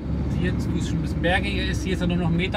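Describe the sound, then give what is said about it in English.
Car engine rumbling steadily as the vehicle drives past farm fields of corn, a continuous low drone with a voice talking over it. “As he drives past his fields”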